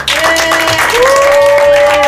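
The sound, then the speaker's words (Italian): Applause at Dynamo Camp for the staff who led a children's session: loud, continuous clapping over sustained tonal sounds that hold steady underneath. “Anche un applauso a tutti i dinamici e gli RC che ci hanno seguito.”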